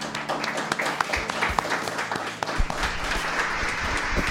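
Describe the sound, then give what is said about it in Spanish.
Audience applause at a live acoustic band session, greeting the band as they are introduced: dense, steady clapping of many hands runs throughout, with a few sharper individual claps standing out. “Fuerte el aplauso para los chicos de Entornos, por favor.”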